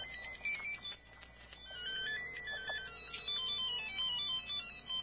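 A new mobile phone ringtone plays alone: a bright, continuous melodic electronic tune of repeating high tones that runs steadily at moderate loudness for about five seconds, with no voices.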